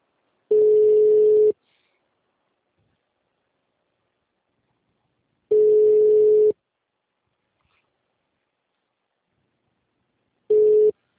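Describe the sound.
A ringback tone on a telephone line after a number is dialled: three steady, mid-pitched tone bursts about a second long, separated by long silences, the last one cut short at the end, with no talk.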